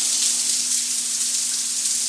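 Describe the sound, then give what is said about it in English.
Steady hiss of shower water running, captured from directly under the spray: a dense, constant rush of falling water with a faint low hum beneath it and no talk. “in here, in the shower, as you could hear the water”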